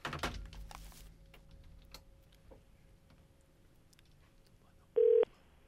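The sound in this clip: A telephone rings: one short, loud electronic ring burst near the end, after several seconds of near quiet with a faint steady tone and scattered soft clicks.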